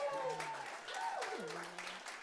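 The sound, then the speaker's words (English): Faint audience applause as a woman is welcomed up on stage, a soft, steady patter of clapping with a voice talking over it. “give her a hand. Welcome her.”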